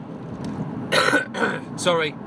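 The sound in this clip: A person coughs a few times: short, harsh bursts followed by a rougher, more voiced one, over a low steady background hum.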